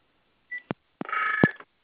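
Telephone keypad tones dialing star six: a short tone, a click, then a longer tone with clicks around it, with no voices.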